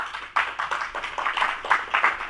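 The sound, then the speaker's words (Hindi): An audience at a poetry reading claps to welcome a poet onto the stage: quiet, fairly rhythmic handclaps in a short, steady run. “Himanshu अपनी रचना के साथ मंच पर आ रहे हैं, करतल ध्वनि से स्वागत करेंगे”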